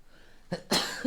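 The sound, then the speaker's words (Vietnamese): A sneeze from a person who feels cold and has been holding it back: a short breathy burst, then a louder, longer explosive burst. No talking. “Buồn hắt xì hơi lắm, cố nén. Có một quả không thể nén được nữa lại phải hắt xì hơi phát.”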